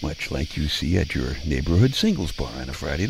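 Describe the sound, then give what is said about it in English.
Crickets chirp on a summer night, a thin, steady high trill that stays faint beneath a man talking throughout. “these summer night creature sounds are made by little dude male bugs rubbing their back legs together to attract their foxy little ladybugs.”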